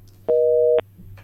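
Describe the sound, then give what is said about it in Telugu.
A busy tone sounds after a listener's phone call drops. It is a single loud, steady electronic beep lasting about half a second over a faint low hum, with no talk. “మరి శ్రోత call అయితే cut అయింది.”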